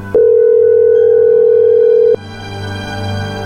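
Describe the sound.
A continuous telephone dial tone holds one steady pitch for about two seconds, then cuts off with a click into low background noise, while a call is being placed during a prank call segment.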